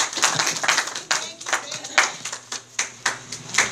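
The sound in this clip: An audience claps to welcome a speaker at an alcoholics' recovery meeting, with sparse, distinct claps coming briskly and irregularly throughout.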